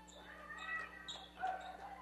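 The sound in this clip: A basketball is dribbled up the court during a basketball game, a few faint, evenly spaced bounces heard under voices.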